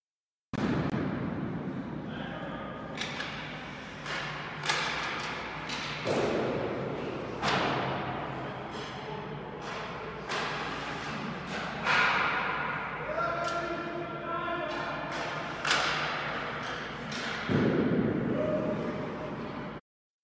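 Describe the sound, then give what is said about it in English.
Hockey wrist shots striking a goal: many sharp cracks, each followed by a bright ringing ping, spaced irregularly and repeating at a fairly even loudness throughout. “So now if you're thinking to yourself, that's just another audio clip of someone taking shots on goal, you would be right.”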